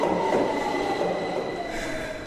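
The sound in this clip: A metro train arriving gives a steady, loud rumble with a thin high wheel squeal ringing over it for the whole stretch, easing slightly in loudness toward the end.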